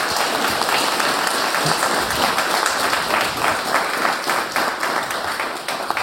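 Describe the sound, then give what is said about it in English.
Audience applause for a presenter at a technical talk: dense, sustained clapping with no gaps that holds steady throughout and eases slightly near the end. “So just a quick round of applause for Bastian Eicher.”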